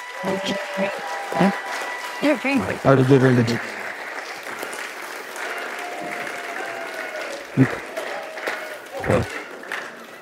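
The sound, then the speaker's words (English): Applause from a gathering near the close of a service, steady clapping that runs throughout beneath people talking, with a few louder bursts. “How about a round of applause for,”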